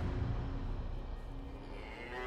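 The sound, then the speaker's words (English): Cattle lowing in a field, a steady, continuous low moo that holds at an even loudness throughout with no other clear sounds. “stood watching over the cattle.”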